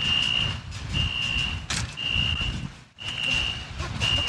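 A vehicle with Maryland plates backs up, its reversing alarm sounding about five steady, high-pitched beeps at an even pace over a low engine rumble.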